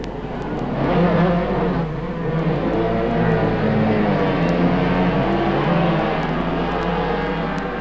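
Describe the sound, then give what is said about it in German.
Motorcycle engines roar at the start of a 1966 50cc race, led by a water-cooled two-cylinder two-stroke Suzuki; a loud, dense, sustained buzzing drone holds steady throughout. “Das war der Start der Klasse bis 50 Kubikzentimeter. Und der Trainingsschnellste, Hans-Georg Anscheid, hatte mit seiner Zweizylinder-Zweitakt-Suzuki den besten Start.”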